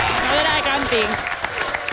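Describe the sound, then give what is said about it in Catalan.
Applause from an audience at a contest held at the Estanyet campsite: dense, continuous clapping that stays fairly loud throughout, with a voice talking over it. “Aplaudiment per tots ells. Bravo.”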